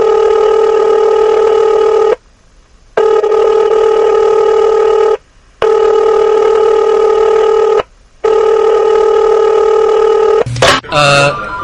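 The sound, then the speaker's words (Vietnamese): A telephone call to a university student office rings out as three long, steady ring tones separated by short silent gaps, followed by a brief, different burst of sound at the end. “Cô dở quyển những trang vàng rồi gọi điện thoại đến phòng quản lý sinh viên đại học y số 2 Giang Kinh”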